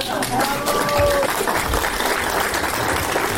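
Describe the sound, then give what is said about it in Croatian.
An audience applauds after a cultural performance in the Zagreb Kajkavian dialect: dense, steady clapping throughout, with a voice briefly heard over it early on. “A taj rad i trud publika željna kulturnih događaja nagradila je obilnim pljeskom.”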